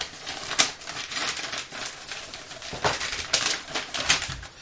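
Crinkly paper tearing and crackling as a sticky envelope is pried open, in a continuous series of rustling bursts that swell and fade in loudness.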